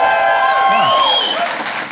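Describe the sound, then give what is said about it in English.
Audience at a stand-up set cheering for Cougars fans in the room, loud applause mixed with high, sliding whoops and shouts that ease off near the end. “That was the name of my high school, so I'm going to tell myself you're cheering for my high school.”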